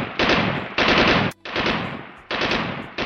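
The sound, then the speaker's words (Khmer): Gunfire from small and large guns around midnight behind a house in Chhuk village: a few long, dense bursts of loud, rapid fire separated by short gaps, with one sharp crack between them. “ស្រាប់តែស្នូកំភ្លើងតូចធំលាន់រំដំផ្ទួតផ្ទួតនៅក្រោយផ្ទះយើងនៅភូមិឈូក”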